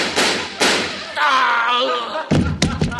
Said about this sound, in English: Give me that gun. I'll teach you to break into people's houses. No, no, don't shoot. Please don't shoot. Take that.